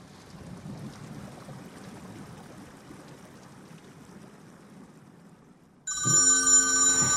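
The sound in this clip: A mobile phone ringing breaks in after a long stretch of quiet background hiss, with loud, bright electronic ringtone notes sounding steadily to the end.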